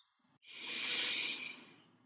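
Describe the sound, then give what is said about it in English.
A single deep breath: one long, airy hiss that swells and then fades over about two seconds, heard alone with no talk. “by taking a deep breath in.”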